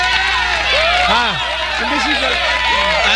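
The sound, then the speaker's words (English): A studio audience chatters loudly. Many voices overlap in a continuous babble that fills the whole stretch. “Teka, hindi ko marinig. Masyado kayong maingay.”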